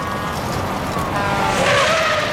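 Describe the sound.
A car speeding at over 100 miles an hour, weaving between trucks in thick freeway traffic, a steady loud roar of engine and road noise that swells slightly toward the end.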